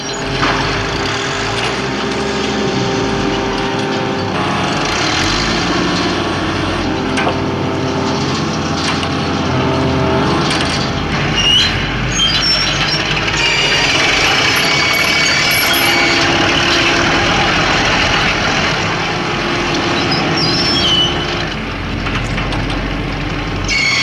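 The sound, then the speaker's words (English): A 600-horsepower crane engine strains to lift and drag a huge rock block, making a continuous loud mechanical roar and grind with scattered cracking and creaking bursts throughout. “Using a 600 horsepower crane, could they lift the rock?”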